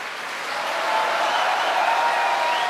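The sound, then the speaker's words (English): An opera audience applauds and cheers for the soprano after a performance, a dense, steady wash of clapping that swells after the first half-second and then holds at full strength. “An enormous cheer for Maria Agresta, tonight's Desdemona.”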